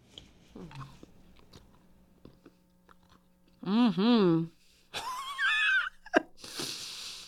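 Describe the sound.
Chewing on a chewy, waxy, sugary candy gives soft, faint mouth sounds, followed by a few loud hummed vocal sounds that rise and fall in pitch.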